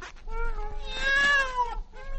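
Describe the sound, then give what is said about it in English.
A cat meows after being let out of a bag, giving a few drawn-out, wavering meows. The middle meow is the longest and loudest, and no one talks. “He stole my cat. I didn't know. I'll open this bag and get him out.”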